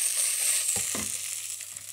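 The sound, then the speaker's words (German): Butter and pine nuts sizzle as they are stirred into warm cooked rice in a pan. A steady bright hiss runs throughout, with two soft scraping thuds from the stirring near the middle. “Ich habe den kurz warm gemacht nochmal, also er ist schon gekocht. Mache jetzt da Butter rein, Pinienkerne.”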